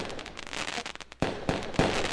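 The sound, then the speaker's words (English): Fireworks on the Fourth of July: a stretch of dense crackling and popping gives way to three loud, sharp booms, each followed by a brief noisy tail. “Fireworks. This is the fireworks.”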